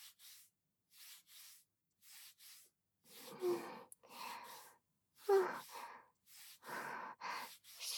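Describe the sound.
Soft, faint back-and-forth rubbing in a series of short, rhythmic strokes separated by brief pauses, with no talk.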